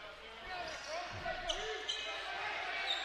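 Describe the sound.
A basketball is dribbled on the court during a game, with a few sharp bounces under a commentator's continuous talk and faint background noise.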